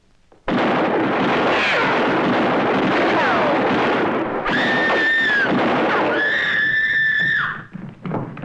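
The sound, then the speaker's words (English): Gunfire in a radio drama about atomic plants, heard as a loud, sustained roaring burst that high, steady whistling tones join midway before it cuts away. “Stop. One more move and I'll fire.”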